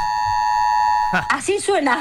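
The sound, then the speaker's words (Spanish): A continuous high electronic alarm tone sounding in the hallway of a high-floor apartment building, steady throughout, with a person talking over it in the second half. “Y las sirenas. Yo estoy en un edificio que no... La verdad que estoy en un piso alto, pero no... Uy, a ver, escucha, a ver, sentí. Ahí está, esto es del pasillo, ¿eh? Ahí está.”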